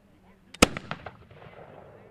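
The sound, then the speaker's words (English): A single loud, sharp gunshot from a period firearm fired at a historical celebration demonstration, followed by a few brief, decaying echoing cracks. “There were demonstrations at the celebration, like the man shooting a gun from that time.”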